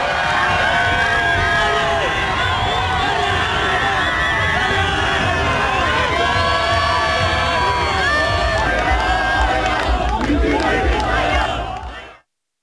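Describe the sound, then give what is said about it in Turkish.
Football fans shouting and cheering at a team training session, a dense continuous crowd roar with rising chants and whistles, loud throughout before cutting off at the end. “Teknik direktör Vincenzo Montella ve futbolcular hem antrenman öncesi hem de idman sonunda taraftarları alkışladı.”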